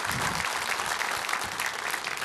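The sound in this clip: Audience applause for a performer rolls on as a steady, dense patter of many hands clapping at a soft level, with no voices standing out.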